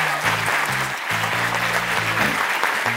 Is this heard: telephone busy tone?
no